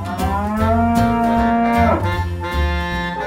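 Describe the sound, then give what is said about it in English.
A cow moos alone, a long, loud, low and buzzy call whose pitch drops toward its end, followed by another lowing moo. “Cow.”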